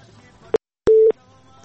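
A telephone busy signal sounds on a call that will not connect: a short blip, then a single steady, mid-pitched tone lasting about a quarter second, over faint line hum.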